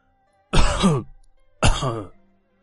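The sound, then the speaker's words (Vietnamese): Two light coughs from an ageing man in declining health. They come as two separate, fairly loud, throaty bursts with a short pause between them, and nothing else is heard. “Thành Vương ho nhẹ hai tiếng, khẽ khẽ lắc đầu.”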